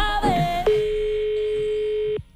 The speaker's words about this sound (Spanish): Ara truquem a la filla.